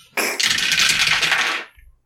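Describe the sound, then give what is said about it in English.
Three dice rolled during a tabletop role-playing game: a dense, bright rattling clatter that runs for about a second and a half before cutting off. “I only have 3 dice to roll on this anyway.”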